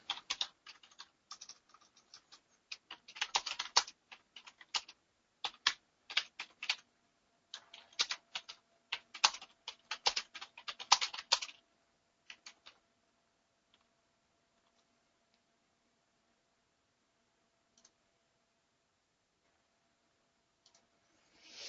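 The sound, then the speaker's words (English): Keystrokes on a computer keyboard as a message is typed, faint quick clicks in uneven bursts for about twelve seconds, then only a few scattered taps in near silence. “I'll type in a message over here.”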